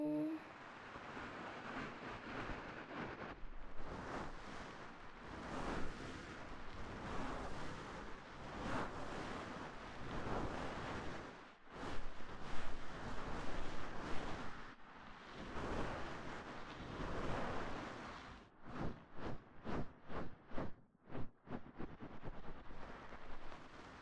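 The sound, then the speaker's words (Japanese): Air blown in a steady, rushing stream to clean a dirty spot, held for long stretches. A quick series of short, sharp puffs follows near the end, with no talking. “あ、ここ汚れてるね。少しギュッギュッ って吹くから動かないでね。”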